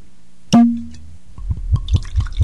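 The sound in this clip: Alcohol being poured into a glass: a bright ringing clink, then a run of rhythmic glugging splashes as the liquid flows, each pulse low and bubbly, fairly loud with no voices.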